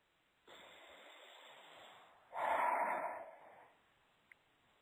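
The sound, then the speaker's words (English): A deep breath taken during an anxiety-release relaxation exercise: a steady, soft inhale lasting about two seconds, then a louder, rushing exhale that fades away, heard alone without talk. “Deep breath.”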